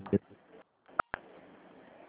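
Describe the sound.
Telephone keypad tones dial an extension on an automated phone line, two short beeps in quick succession, with speech heard before and after them.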